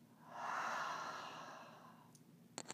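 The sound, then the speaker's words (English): A deep breath during a guided breathing and arm-movement exercise, heard as one long, soft, airy exhale that swells and then fades over about two seconds, followed by a few faint clicks. “Take a nice breath in, inhale. And exhale, down and around.”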